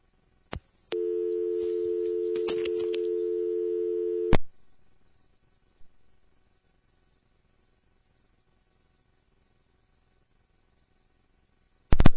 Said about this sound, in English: Your call is disconnected. You may dial the number again.